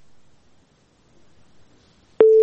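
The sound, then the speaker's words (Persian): A telephone tone sounds after a listener's call is cut off. After faint, low murmuring, a loud, steady, mid-pitched beep starts abruptly and holds until the end. “تماسی شنونده ما هم قطع شد”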